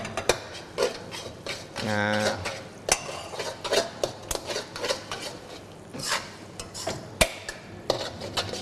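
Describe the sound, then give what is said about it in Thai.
A metal utensil clanks and scrapes in a pan as noodles are stir-fried and sauce is ladled in, with irregular clinks and knocks under a speaking voice. “ได้เลยครับผัดให้เข้ากันแล้วตัวน้ำซอสของเราก็ได้ที่แล้วนะครับความเหนียวตามที่เราต้องการเลยเราก็ใส่ลงไปนะ1ทัพพีก่อนนะครับเราก็ดูปริมาณ1เสิร์ฟนะครับเราก็หยอดลงไปได้เลย”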